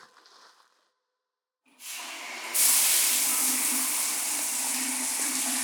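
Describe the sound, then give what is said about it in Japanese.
Shower water spraying onto crackling foam while someone's back is being washed, a steady hiss that starts after a brief quiet gap, swells louder a moment later and then holds evenly to the end. “シャワーをかけたらさらにパチパチしてますね。”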